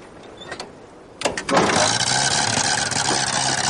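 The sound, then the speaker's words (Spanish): A car engine starts up and the vehicle moves off along a track toward a hermitage. After a quiet stretch with a few faint knocks, a sudden burst of noise swells into a loud, steady engine roar that runs to the end. “arranca el vehículo y se alejan por el camino de la ermita”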